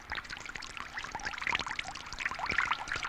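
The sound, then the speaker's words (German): A fountain in the Kreis 4 district splashes steadily, a faint, continuous pouring and trickling of water with small irregular spatters throughout. “das ist der Brunnen.”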